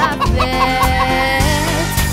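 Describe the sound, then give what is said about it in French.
A hen clucks in short bursts set into a children's farm-animal song, a few rhythmic clucks riding over steady, sustained musical backing. “La petite poulette veut faire”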